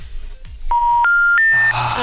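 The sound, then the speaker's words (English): Telephone line tones heard after dialing an unallocated number with a Greater Manchester area code: three steady, clear tones step upward in pitch one after another, following a few faint clicks. “Funny thing is, it says on the screen, right, I've just dialed, unallocated number, but it still says Manchester area, Greater Manchester.”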